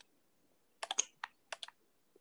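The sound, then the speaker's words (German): Faint typing on a computer keyboard: a few quick clusters of key clicks with short pauses between them, with no voices over them. “Und du tippst sogar im Hintergrund.”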